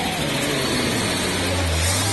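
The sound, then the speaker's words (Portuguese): Engine of a Chevrolet Chevette car being revved: a steady, loud mechanical rumble with a low droning hum that climbs slightly in pitch near the end. “E nos resta agora ligar o chevetinho. Acelera”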